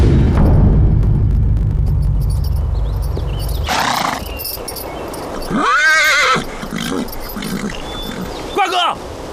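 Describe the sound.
A horse among approaching troops whinnies loudly in an arching neigh, with a second, shorter neigh near the end. A low, dense rumble fills the opening seconds.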